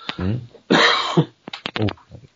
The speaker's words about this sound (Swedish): Man hostar så ju.